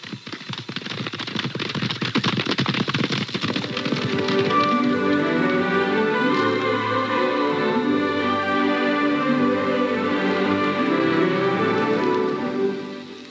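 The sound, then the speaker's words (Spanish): A horse's hooves clatter in a rapid clip-clop as the rider sets off. The beats are dense and loud for the first few seconds, then thin out beneath a steady tonal backdrop. “¡Vamos, caballito! ¡Allá voy! ¡Esperadme!”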